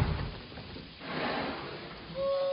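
The door of a camper trailer being opened, a muffled scraping and rushing sound amid a low, dense background of film score.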